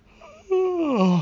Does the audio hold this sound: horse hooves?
no

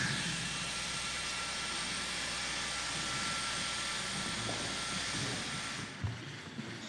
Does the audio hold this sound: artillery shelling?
no

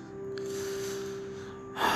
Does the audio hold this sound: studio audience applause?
no

